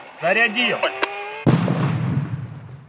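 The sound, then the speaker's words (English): Controlled detonation of Russian anti-tank cluster mines by a bomb squad in Kharkiv, Ukraine: brief talk, then a single sharp, loud blast followed by a long, low rumble that slowly fades. “And the plan is to drop it next to these mines and explode them. They connect cables to a detonator. They wind it to create a charge.”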